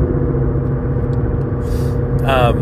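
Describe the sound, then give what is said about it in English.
A car's engine rumbles steadily while driving, low and even throughout, with a brief voice near the end. “Casting and driving, I gotta pay attention to these signs. I'm still not the most familiar with this route.”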